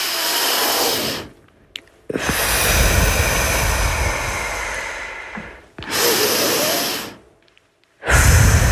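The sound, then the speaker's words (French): Deep breathing during a relaxation exercise: long, loud, airy inhales and exhales of uneven length, separated by brief pauses of quiet. “nous allons respirer profondément”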